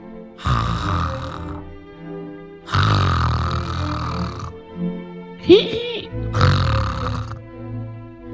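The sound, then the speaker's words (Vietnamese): An old man snores loudly: three long, rasping snores in a slow rhythm. A shorter squeaky sound falls between the second and third. “Lão ngáy vừa to mồm vừa thối quá.”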